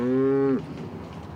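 A cow mooing on a floating cowshed in Rotterdam: one short, low, steady moo that breaks off after about half a second, leaving a faint low background rumble.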